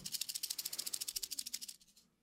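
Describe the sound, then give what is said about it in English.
Rattlesnake rattle shaking in a fast, steady buzz of many rapid dry pulses. It is faint throughout and dies away near the end. “It's a real rattlesnake. Yeah, I was just thinking, you got a fucking rattle.”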